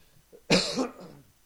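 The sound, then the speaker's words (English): One short, raspy cough with some throat clearing from a person whose throat is clogged. It is a single quick burst, alone against near silence. “Excuse me today, my throat is a little bit clogged up.”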